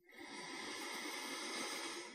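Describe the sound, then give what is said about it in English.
A slow, deep breath drawn in through the nose, heard as a soft, steady airy hiss lasting about two seconds with no other sound. “Take a deep, slow breath in through your nose”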